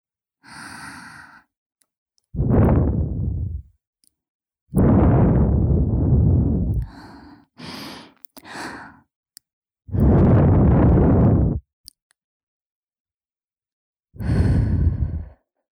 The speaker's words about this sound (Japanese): じゃあ最後にふうふうして終わりにしよっか。